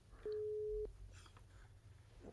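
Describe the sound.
A telephone ringing tone from an outgoing call sounds once as a single steady mid-pitched beep, lasting just over half a second, followed by quiet line hiss.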